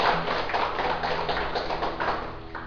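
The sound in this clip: Audience clapping during a talk, a dense and steady patter of hands that runs evenly for nearly three seconds at moderate loudness.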